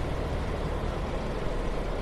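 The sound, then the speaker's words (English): Street traffic at a tram stop in central Hong Kong, where double-deck buses run, makes a dense, steady roar with a heavy low-end engine rumble. It stays loud and unbroken throughout, with no talk. “While we're here just waiting for a tram, I'm going to jump onto the next tram that heads towards Kennedy Town,”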